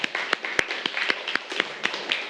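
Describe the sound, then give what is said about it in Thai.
Scattered hand claps from a few students in a classroom: sharp, uneven slaps spread through the moment rather than a full, dense round of applause. “โอเคปรบมือให้เพื่อนหน่อยครับ”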